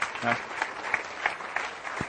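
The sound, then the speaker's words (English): A church audience claps hands in praise, a dense run of applause with a loose, steady beat throughout and a brief voice near the start. “Give the Lord a hand clap, would you?”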